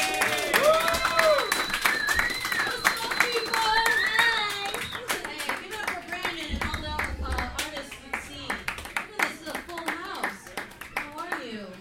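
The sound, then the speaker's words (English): Audience applause for a comedian, brisk dense clapping with voices calling and cheering over it, tapering off toward the end. “Please put your hands together for Jessica Brodkin, everybody.”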